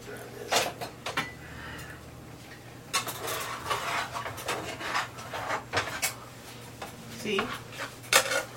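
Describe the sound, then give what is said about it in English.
Baking pans clattering as they are put into an oven in a messy kitchen: several sharp metallic knocks and scrapes in irregular bursts, some louder than others, over a low steady hum. “I'm gonna stick these in the oven.”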